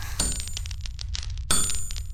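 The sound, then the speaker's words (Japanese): Hammering on iron, two loud ringing metallic clangs about a second apart, with fainter taps and high shimmering overtones between them. “鉄を叩くのはそんなに面白いのか。そんな同じことの繰り返し、飽きそうなもんじゃがの。”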